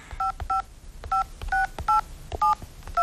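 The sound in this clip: Touch-tone telephone number being dialed: seven crisp two-note beeps in an uneven rhythm, with soft key clicks between them.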